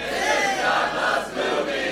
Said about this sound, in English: Oh, that was a very pleasant version of that. Very, a lot of singers in the audience.